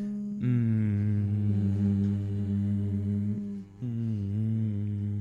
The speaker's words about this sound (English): find a sound like this, an M, prolonging an M.